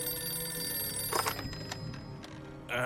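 A telephone rings in a corner, faint bell-like trills that repeat over a quiet, steady background.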